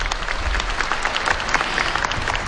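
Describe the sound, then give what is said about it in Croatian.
Audience applause for a women's klapa choir from Zadar at a final concert, dense and steady clapping that holds at an even loudness for the whole stretch, with no voices over it. “Još jednom srdačni pljesak za Zadranke.”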